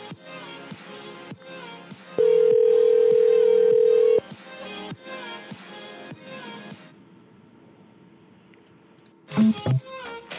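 A telephone dial tone on a phone line cuts in as a loud, steady hum for about two seconds over background music, followed later by a few short dialing beeps.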